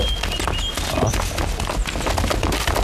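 Hooves of an approaching band of armed riders on horseback pound in a dense, continuous clatter of thuds and knocks, loud and unbroken for the whole stretch.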